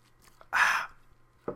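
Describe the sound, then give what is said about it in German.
A sip of a drink, something healthier than cola taken during a cold, heard as one short, breathy slurping burst with a brief, faint breath-like sound at the very end. “So, warte mal, jetzt muss ich einen Schluck trinken.”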